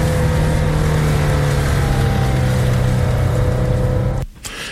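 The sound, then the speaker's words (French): A car's loud, steady engine and road drone as it drives out of town, holding an even pitch before dropping away abruptly near the end. “Sortie d'agglomération. Donc ? On accélère. Eh oui, on accélère. Pas trop.”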